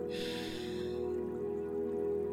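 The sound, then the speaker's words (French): Breath pushed out through the mouth, a soft, breathy rush of air lasting about a second before fading away beneath a steady, low tonal drone. “Expire par la bouche. Souffle. Inspire.”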